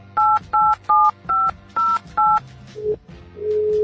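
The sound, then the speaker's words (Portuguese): Six dialing beeps as a Skype call is placed, evenly spaced bright two-note tones, followed by lower connecting tones and then a steady sustained call tone. “A Tarsila Garcia, vamos ligar para ela aqui, atenção, ligar através do Skype mesmo para poder gravar.”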